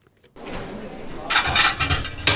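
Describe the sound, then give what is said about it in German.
Crockery clatter as a warm plate is taken from an oven in a restaurant kitchen, with a few bright clinks and knocks of dishes over a faint background hum. “Ich nehme einen warmen Teller von Ofen, weil das Teller bleibt immer warm.”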